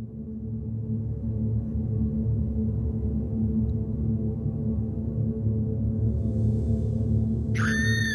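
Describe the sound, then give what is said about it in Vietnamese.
A cold, piercing scream tears through a silent night, a brief high-pitched cry bursting in only at the very end after a long stretch of steady low hum. “Tiếng hét lạnh ngắt xé rách màn đêm tĩnh mịch.”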